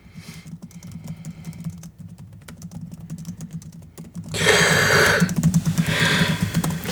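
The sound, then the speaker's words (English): Typing on a computer keyboard: many quick, crisp key clicks tap along steadily, then a louder, denser burst of keystrokes takes over for the second half. “The horrible noise you just heard is me typing a dunk on Nora”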